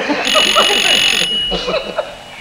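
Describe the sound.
A telephone gives a steady, high, ringing trill that stops partway through, while a person talks over it.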